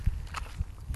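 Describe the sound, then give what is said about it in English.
Footsteps of a person walking outdoors near traffic: three soft, low thuds at a steady pace over a constant hiss of background noise. “As you can hear, I'm currently walking.”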